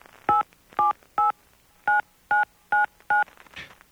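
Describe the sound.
A touch-tone phone dials a seven-digit number: seven crisp, evenly paced dual-tone beeps of equal loudness, each short and clean, separated by brief silences.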